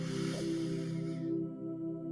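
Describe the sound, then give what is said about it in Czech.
A slow breath drawn in through the nose during a guided breathing exercise, a soft, airy hiss lasting just over a second above a steady low drone that continues alone once the breath fades. “Takže nádech nosem,”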